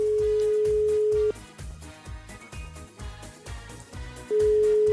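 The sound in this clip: A ringback tone sounds on a phone call that goes unanswered: a steady, mid-pitched tone plays for over a second, then stops and returns about three seconds later, with a rhythmic low beat running underneath throughout.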